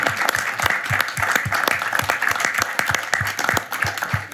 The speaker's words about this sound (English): So let's give a big hand to them.